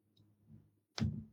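A knife slices food while cooking coq au vin: soft, low scraping, then one sharp, crisp knock as the blade meets the board, followed by a brief dull rumble.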